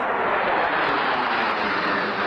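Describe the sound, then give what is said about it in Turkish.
Four US Air Force fighter jets fly low over a stadium during the national anthems before a match, making a loud, dense, continuous roar that holds without a break. “Karşılaşma öncesinde ABD Hava Kuvvetleri'ne ait 4 P-16 savaş uçağı, milli marşlar sırasında stad üzerinde alçak uçuş yaptı.”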